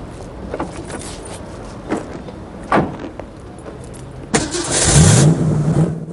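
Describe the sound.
A yellow sports car's door thuds a few times, then the engine cranks and catches, settling into a loud, steady, growling idle that continues to the end.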